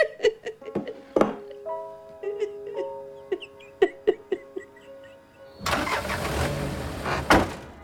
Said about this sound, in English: Tim drives Kelly, Jill and Mark away.